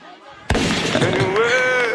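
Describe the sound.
A rifle gunshot sound effect dropped into a live 90s dancehall DJ set: one sudden, loud blast that cuts in sharply after quiet music, followed by continuing music with a voice over it.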